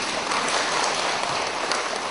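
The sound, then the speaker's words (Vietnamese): Audience clapping after a Buddhist dharma talk, a dense, even rush of many hands clapping together, steady and loud throughout with no talk. “Vỗ tay mà có làm không ta? Vỗ tay mà có học không?”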